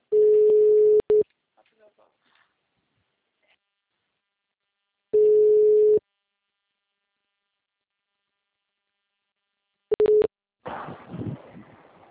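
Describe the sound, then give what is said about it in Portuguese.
Telephone busy tone after a dropped call: a few steady mid-pitched tone bursts separated by silence, followed by a person starting to speak. “a ligação caiu”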